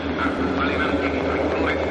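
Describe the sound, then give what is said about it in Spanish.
Low, steady rumbling drone of airplanes flying overhead, heard throughout at an even, moderately loud level with a deep underlying hum and no clear breaks. “Los aviones.”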